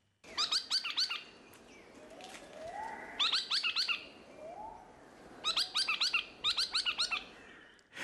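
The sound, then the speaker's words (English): Logrunner, a rainforest floor bird, giving loud bursts of rapid, high, squeaky notes in four clustered phrases separated by pauses, over a low background hum. “the chowchilla is the northern relative of the much better known log runner, which sounds like this.”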